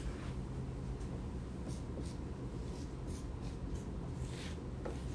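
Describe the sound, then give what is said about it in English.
Faint scratchy strokes of someone drawing on a board, a steady rubbing texture with a few brief sharper marks over a low background rumble, no voices. “I'm drawing on the board XYZ.”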